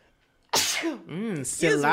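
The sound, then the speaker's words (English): A single loud, sudden sneeze bursts out, followed by drawn-out, throaty voiced sounds from the same person. “Oh, I got to sneeze.”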